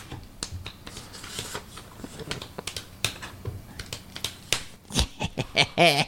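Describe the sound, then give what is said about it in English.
Paper crinkles and rustles in someone's hands during a game of rock paper scissors. Many sharp, irregular crackling snaps grow louder and more clustered toward the end. “For the record, that sound was from some paper. Oh. Paper rock. We were playing Rochambeau. We were playing paper rock scissors.”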